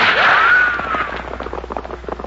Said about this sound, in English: Who do you think you're shooting at?